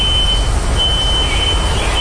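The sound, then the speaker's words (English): A smoke detector keeps sounding in a row house after a fire. Its thin, high-pitched tone runs almost continuously with brief breaks over a loud, low rumble. “And that right there is a nearby smoke detector still going off this morning in one of the row houses here.”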